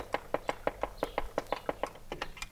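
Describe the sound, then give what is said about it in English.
An oil can pumps fuel into the carburettor mouths of an engine started with a trembler coil, making a quick, even run of many sharp, faint clicks at about six per second. “That was the oil can, which is pumping fuel into the carburetor mouths.”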